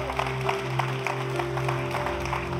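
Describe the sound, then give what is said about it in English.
A church audience applauds to welcome their church family, with continuous, even clapping over sustained low background tones. “We put your hands together and welcome your church family?”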